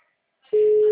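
A telephone tone sounds while a call is being placed: a steady, single-pitch electronic tone that starts after a moment of near silence and holds unbroken and loud to the end.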